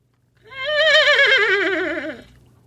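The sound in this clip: A human voice imitates a horse whinnying, producing one sustained, wavering call with a fast vibrato-like tremble. The loud, tonal cry jumps up at the start, then gradually sinks in pitch over about two seconds before cutting off.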